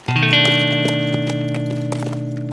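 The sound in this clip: Hoofbeats of a horse ridden off at a gallop, with many quick, evenly spaced thuds over a steady droning tone throughout.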